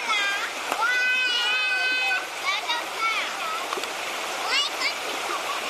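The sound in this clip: Water running along a river stream, a steady rushing wash with splashy detail and voices speaking over it.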